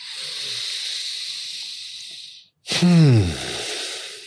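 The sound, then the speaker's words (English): People take a deep breath together: a long, airy inhale hisses steadily for about two and a half seconds, then after a short gap comes a voiced sigh that falls in pitch as they breathe out. “Let's all take a breath to that.”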